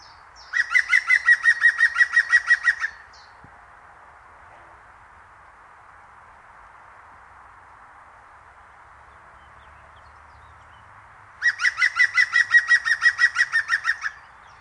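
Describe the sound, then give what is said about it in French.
Great tit singing: two bursts of rapid, evenly repeated high chirping notes, one at the start and one near the end, separated by a long stretch of steady faint hiss with no voices. “C'était la mésange charbonnière.”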